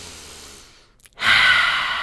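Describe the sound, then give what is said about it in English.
Deep breathing: a soft, airy breath sound, a short near-silent pause, then a louder, hissy breath that holds steady to the end, with no talking. “one of the other really good things to do is to take some deep breaths.”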